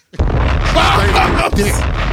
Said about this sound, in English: Bombs!